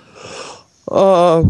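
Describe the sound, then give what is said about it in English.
A single yawn starts with a breathy inhale and then stretches into a strained, voiced, drawn-out tone that cuts off abruptly. “Sorry there for the yawn.”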